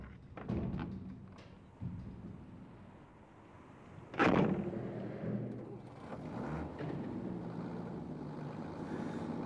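A delivery vehicle bringing food pulls up with a continuous low engine rumble, broken by one loud thump partway through and a few lighter knocks.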